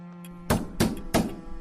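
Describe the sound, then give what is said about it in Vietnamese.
Three sharp knocks on the door of a hut at midnight, evenly spaced hollow thuds following a brief faint hum, moderately loud and alone. “Tiếng gõ cửa lại tiếp tục vang lên.”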